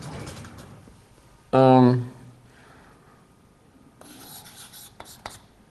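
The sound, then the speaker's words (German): Handwriting strokes made while working through programming notation, with a few short scratchy bursts near the end, coming after a brief loud voiced sound and faint talk. “Get Operand 1, ja, ich schreibe es mal so hin,”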